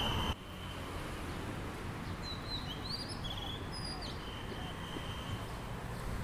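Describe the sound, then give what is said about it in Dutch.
Birds chirp and whistle in thin, high notes above a dense, steady rumble of car traffic in Bangkok. “De vogels proberen het aanzwellende autoverkeer nog te overstemmen.”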